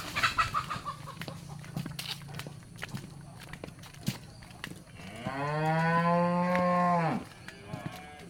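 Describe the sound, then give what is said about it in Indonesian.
A cow in a village moos once, a loud, low, drawn-out call of about two seconds, after a stretch of quieter rustling and knocking sounds. “Gaduh moh. Rilek sapi.”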